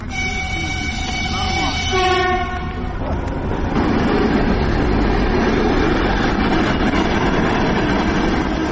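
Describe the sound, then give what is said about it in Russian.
A reserve electric train departs from track two, sounding a steady horn for about two seconds before a continuous rolling rumble and rattle of the cars takes over. “По второму пути отправляется резервный электропоезд.”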